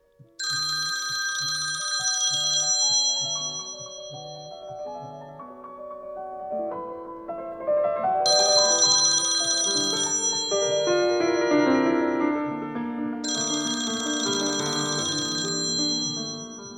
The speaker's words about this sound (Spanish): Un día en la casa de la calle Obligado, sonó el teléfono.